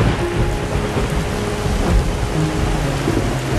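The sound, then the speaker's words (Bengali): Heavy rain pours down in a dense, continuous roar, with low rumbling thunder underneath, loud and unbroken throughout. “এমনই সময় হুড়মুড়িয়ে নামল আকাশ ভাঙা বৃষ্টি।”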